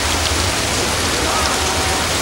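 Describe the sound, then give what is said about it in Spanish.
Heavy rain pours down in a dense, unbroken hiss with a low rumble underneath. It stays steady and even throughout, with no voices. “¿Qué manera de llover?”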